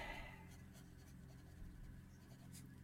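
A pen or pencil scratches across paper as something is written down by hand, a faint run of short scratchy strokes that keeps an uneven rhythm.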